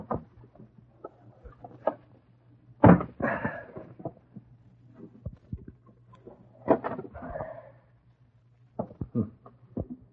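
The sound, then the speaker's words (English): A window is opened with scattered clicks, knocks and a few scraping rattles, sparse and fairly quiet with pauses between them. “Now, if I can open this window without breaking it. There we are.”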